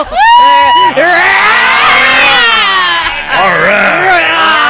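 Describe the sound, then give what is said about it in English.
A voice imitates a car engine revving, with loud, strained, buzzy tones whose pitch swoops up and down in two long bursts and a brief dip between them. “What are you doing? Why do you rev it up like that?”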